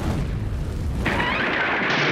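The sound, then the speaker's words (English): Explosion of an untapped maple tree: a heavy, continuous booming roar. A brighter, hissing blast sets in partway through and rumbles on to the end. “An untapped tree is a time bomb ready to go off. Watch it. Be careful there.”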